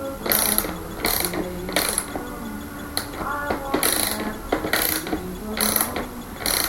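A ratchet wrench clicks as a nut on a brake mechanism is loosened and comes off. Several short bursts of rapid ratcheting clicks are separated by brief pauses.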